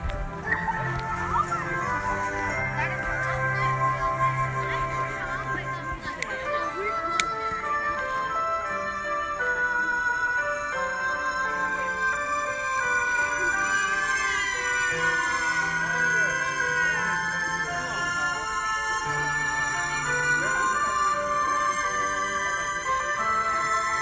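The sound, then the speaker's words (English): Silent Night plays as music for the Twin Trees display, with sustained, steady melodic tones that continue throughout at an even level. “Okay, this is the music for the Twin Trees.”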